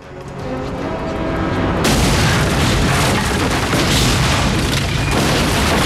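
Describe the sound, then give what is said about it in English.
Dynamite blast blowing up a wall near a barge on the water: a loud, rumbling roar is already under way when a sudden, heavier boom hits at about two seconds. The boom swells into a sustained, thundering wash of noise. “as the wall blows up.”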